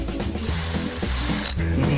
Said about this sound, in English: Just get that drill and drill it a little bit. Drill them both out. Hold on. Drill them out.